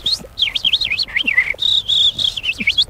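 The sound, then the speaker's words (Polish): A person whistles an imitation of birdsong in warbling, high-pitched phrases that trill up and down. A short pause falls midway, and then a steadier, sustained whistled note leads into more warbling. “Nie jest jakaś dyskusja o polityce, tylko po prostu naśladujemy ptaki.”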